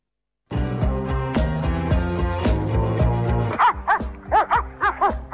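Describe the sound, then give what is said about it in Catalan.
A dog barking: a quick run of many sharp, bright barks that begins after a stretch of full, steady music, each bark clipped and loud. “Aquest és el gos que va mossegar el gat”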